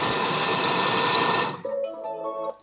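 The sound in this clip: Loud, steady mechanical whirring from a robotic machine mixing, lasting about a second and a half, then switching to a lower, more tonal hum with humming overtones and a few uneven dips before it cuts off.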